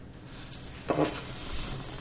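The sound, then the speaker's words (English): Cooled homemade cereal tipped into a large bowl gives a dry, rustling, scattering hiss that holds steady, with one brief, louder clatter partway through. “The cereal has now been left to cool for about half an hour, and I'm going to tip it into a bowl. You'll need a large bowl here, because it's quite a lot of it.”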